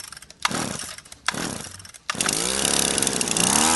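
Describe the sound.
A gas-powered string trimmer gives two short revs, then the engine catches and runs continuously with a loud, buzzing whine. Its pitch climbs at first, then holds steady while someone trims with it.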